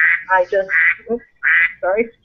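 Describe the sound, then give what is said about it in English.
A phone alarm tone that imitates a duck gives a rapid series of loud, nasal quacks in short bursts, with brief gaps between them. “Was that a duck?”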